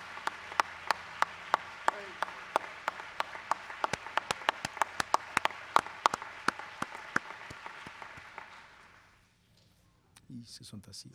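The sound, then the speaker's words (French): An audience rises to applaud and honor a brother at a gathering. Many hands clap together in a steady, regular rhythm for about nine seconds, then the clapping stops and brief voices follow. “L'audience se lève pour acclamer.”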